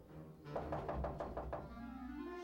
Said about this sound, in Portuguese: Mas quem será que está batendo?